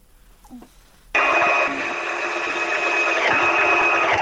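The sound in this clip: Sewing machine stitching clothes, part of women's tailoring work in Afghanistan: after a quiet opening with faint sounds, the machine starts abruptly and runs as a steady, continuous whirring hum to the end.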